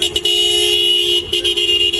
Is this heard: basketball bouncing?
no